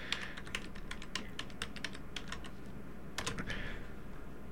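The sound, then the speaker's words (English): Someone types on a computer keyboard, with many quick, irregular keystrokes clattering at a moderate level over faint background noise. “Let's see, St. Louis Community Radio Station. I'm just going to type that in.”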